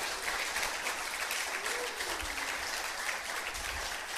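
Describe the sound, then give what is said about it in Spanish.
Applause from an audience during a Christian sermon: a steady, dense wash of clapping that holds at an even, fairly soft level throughout, with no break or swell. “Denle un aplauso si quieren.”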